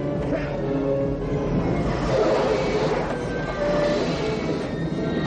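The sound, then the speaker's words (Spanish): A train applying its emergency brakes: a loud, continuous rumble of the rail cars, with thin, steady metallic whining tones running over the noise. “El tren acciona los frenos de emergencia.”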